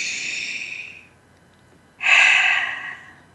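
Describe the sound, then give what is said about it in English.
Two long, airy breaths taken during a guided breathing exercise, separated by about a second of near silence, each rising quickly and trailing off smoothly with no talk over them. “One more deep breath together.”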